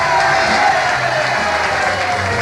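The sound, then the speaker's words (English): Audience cheering and applauding at a live New Year's Eve All-Star Parade of Bands show at the Village Gate in New York City, a loud, dense, sustained wash of clapping and cheers that stays steady throughout. “I want to wish everybody a Happy New Year. And let's hear it from the audience here. Happy New Year!”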